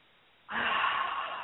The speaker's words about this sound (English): how many of us go through the day and we don't even stop and take a deep breath? And we could all do that right now, actually